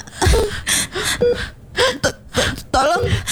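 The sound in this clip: Ragged gasping for breath from someone who cannot breathe and has chest pain: several loud, strained gasps mixed with voiced moans and whimpers, separated by short pauses.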